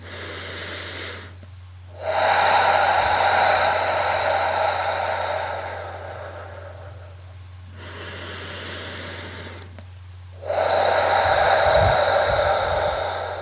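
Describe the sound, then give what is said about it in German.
Slow, deep breaths taken during a guided relaxation exercise: several long, airy breath sounds, each lasting a few seconds, separated by short pauses over a faint, steady low hum, with no talking. “Nimm dich ganz und gar wahr, hier und jetzt auch dein Atem. Und nochmal zwei oder drei tiefe Atemzüge.”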